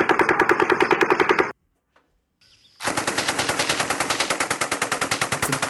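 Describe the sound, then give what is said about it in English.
Automatic fire from an M240 machine gun shooting alone: a short burst of rapid, evenly spaced loud reports, a brief silence, then a longer sustained burst of many shots. “And then next is an M240 shot by itself.”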